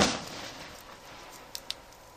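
A firework rocket goes off in a pub garden with a sharp burst that trails into a fading hiss. Two small, faint pops follow a little later.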